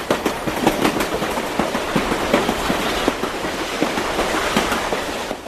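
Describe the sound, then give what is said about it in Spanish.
A train passes an open window in Caballito, its wheels rattling in a steady clickety-clack with many rhythmic clicks throughout. “Ahí pasó el tren, pasó un tren, teníamos la ventana abierta, acá por Caballito pasó un tren.”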